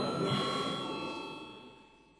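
A parliament chamber bell rings before a vote: one steady, continuous electric ring that holds a constant pitch and slowly fades toward the end.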